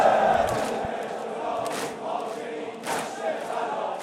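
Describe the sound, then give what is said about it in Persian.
A crowd chants at a mourning gathering, many voices joined in a dense, unison roar that holds at a steady level with slight swells. “خدا وکیل این صدای این جمعیته.”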